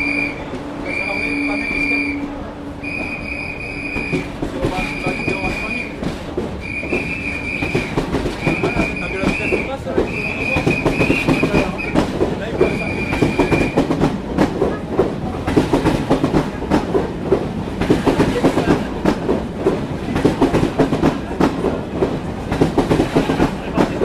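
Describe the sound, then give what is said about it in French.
A TGV high-speed train departs with a broad rolling rumble and rhythmic rail clatter that thickens and grows louder, while a string of high, evenly spaced beeps sounds over the first half. “Voilà le TGV qui part.”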